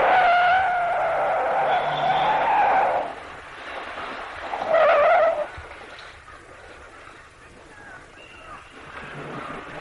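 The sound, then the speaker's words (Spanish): A car drives down a road descending from the top of a city and stops beside a streetlamp. A rumbling engine and tyre noise are loud early on, then ease off and settle to a low hum after about five seconds. “Un coche circula por una carretera que desciende de lo más alto de una ciudad. El vehículo para al lado de una farola”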